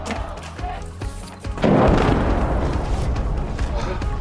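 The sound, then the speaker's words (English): Incoming Russian artillery rounds: a few faint thuds, then a heavy boom that gives way to a loud, sustained rumble lasting to the end. “you can hear the incoming rounds. The incoming rounds from Russian artillery fire are really intensive here.”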